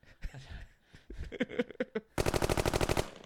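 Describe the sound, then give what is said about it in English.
Gunfire from several guns: scattered single sharp shots at an uneven pace, then a loud, sustained rapid burst of automatic fire before it stops. “How many fucking guns? This is very incriminating. I got a lot of guns, dude.”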